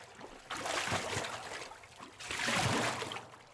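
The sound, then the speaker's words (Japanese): Hot water is poured over someone's back in an indoor bath, making two soft splashing pours separated by a brief pause. The sound is quiet and alone. “はい、お湯かけてあげる。背中向いてください。”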